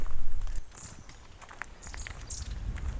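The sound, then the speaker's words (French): Footsteps walking on ice, a few crisp crunching steps with a loud start that then settles into lighter, steady treading, and faint high chirps above. “Un peu de glace accompagne la marche.”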